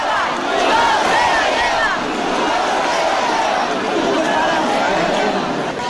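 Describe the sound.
Festival crowd noise at the Cascamorras celebration in Guadix: a loud, continuous babble of many voices with shouts rising out of the mass, holding steady throughout.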